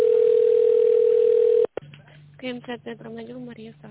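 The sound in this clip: A telephone line tone plays while a call is transferred, a steady, unbroken mid-pitched hum lasting over a second and a half. It cuts off abruptly, a low line hum follows, and then a voice speaks over the line.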